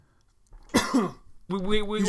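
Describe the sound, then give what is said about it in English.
Coughing fit: two harsh, noisy cough bursts in quick succession, followed by a strained voiced sound. “Coughing up a storm. This just got me all choked up”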